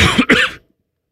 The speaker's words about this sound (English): I coughed out feathers.